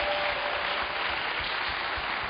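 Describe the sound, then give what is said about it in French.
Congregation applause at a church service, a dense steady wash of many hands clapping that fills the whole clip at an even, fairly loud level, with no voices standing out. “Clap for Jesus. Acclamez pour Jésus.”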